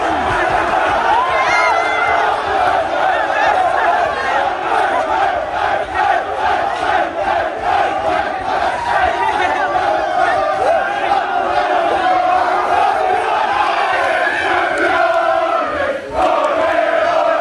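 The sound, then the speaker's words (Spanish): Arsenal's crowd celebrates a football title, chanting "campeones" in a loud, rhythmic chorus that repeats many times without pause, with whoops rising above the sustained roar of voices. “No, no, si es que era el sonido seguido del Arsenal celebrándolo. Es un minuto más o menos. Mira, escucha. Terminaban con el campeones.”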